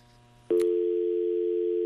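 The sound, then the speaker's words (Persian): A telephone tone sounds after a caller's call drops on a phone-in line: a click, then a steady, loud, unbroken electronic hum-tone that holds evenly to the end over faint low background hum. “تلفن نفر اول قطع شد.”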